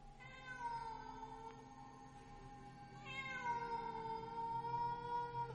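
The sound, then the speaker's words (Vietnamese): A black cat yowls eerily at night, two long, drawn-out tonal cries, the second starting fresh and sustained to the end, faint but clear against otherwise quiet surroundings. “Con mèo trong khung ảnh cất lên âm thanh nghe ghê rợn trong đêm.”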